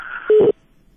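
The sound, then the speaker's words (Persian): A short, single telephone tone sounds as a caller's line is cut off, following a moment of hissy line noise and then dropping to near silence. “تلفنشان قطع شد. کوشش بکنین دوباره زنگ بزنین، ممکن است تلفنتان رخ شوه.”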